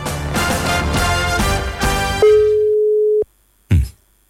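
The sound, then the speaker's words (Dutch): A single steady telephone line tone of about one second sounds as a call is placed, following loud music and then stopping abruptly, with one brief sharp noise after it. “Er wordt nu gebeld.”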